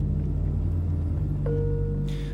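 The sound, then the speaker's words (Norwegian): Low, steady engine and road rumble heard inside a car driving from an international airport in Iceland. A thin, steady tone enters partway through, and a brief bright sound comes near the end. “Vi sitter i en bil og kjører fra Keflavik internasjonale flyplass, flyplassen i Reykjavik.”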